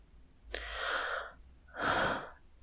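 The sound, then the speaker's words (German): Two heavy breaths drawn close into a microphone, each a breathy, airy rush lasting under a second, separated by a brief quiet pause. “Ich atme schon wieder sehr viel in diesem Podcast.”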